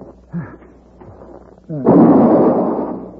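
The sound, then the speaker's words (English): A single gunshot from a rifle bursts out loudly and abruptly, then trails off in a long, rumbling decay that fills the rest of the moment. “I've got him. He's dead. Yeah. Paladin, I shot the Redskin.”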